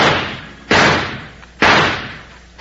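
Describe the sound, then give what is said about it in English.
Gunshots at target practice ring out in a Western setting. There are three sharp, loud cracks at even intervals of about a second, and each has a long, fading tail. “Looks like you did it, Jingles. Yeah! How about that? Every shot in the bullseye. Bill, that's about the best I ever done.”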